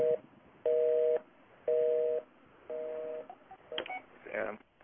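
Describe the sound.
Telephone tones on a calling card call: four evenly spaced long identical tones with short gaps, followed by a few brief beeps and a burst of line noise.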